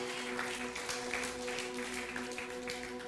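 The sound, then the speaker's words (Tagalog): Applause from a church audience, a steady wash of clapping that holds at an even level for the whole stretch, with sustained musical tones running beneath it. “Palakpakan nga po natin si Lord.”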